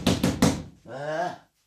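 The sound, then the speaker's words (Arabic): Three quick, sharp knocks on the door of a house land at an even rhythm, followed by a short, voiced sound that rises and falls. “يا الله، ترى من هذا الذي يطرق باب الدار هكذا؟”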